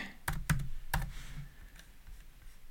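Typing on a computer keyboard: a few sharp, crisp key clicks land in the first second, then the tapping fades into a quiet, low hum.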